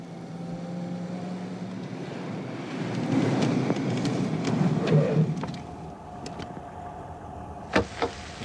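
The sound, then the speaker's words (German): A car pulls over to the left, its rumbling engine and road noise swelling midway and then easing off. Two sharp clicks follow near the end. “Und du fährst jetzt bitte links ran.”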